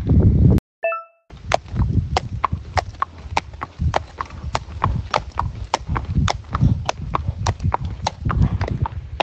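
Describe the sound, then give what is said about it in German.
Horse hooves clip-clop on the footing of an indoor riding arena as a horse is led at a walk, many steady, evenly spaced beats running throughout over constant background noise. “Ihr hört jetzt viele Hintergrundgeräusche. Wir sind jetzt in der Reithalle.”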